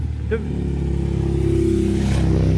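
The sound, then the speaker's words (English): A motorbike engine approaching: a steady, buzzing low drone that grows gradually louder and holds at full strength to the end. “Do you see this fella coming on the motorbike?”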